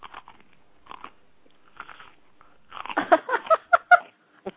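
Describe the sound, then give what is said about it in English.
Someone bites and chews food. A few soft, scattered crunches come first, then a quicker run of louder, crisp bites and chewing sounds, with no talking. “Well, if I eat something, would it sound like...”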